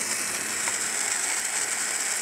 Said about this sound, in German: Achtung, jetzt wird wieder laut. Da mache ich jetzt schon mal ein bisschen Olivenöl rein. Und natürlich ein bisschen Butter, klar.